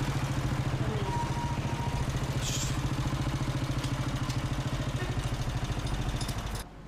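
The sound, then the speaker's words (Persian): A motorcycle engine idles outside a guesthouse with a rapid, even throbbing that stays level, then cuts off abruptly just before the end. “سوار موتور جلوی مسافرخونه می ایستن.”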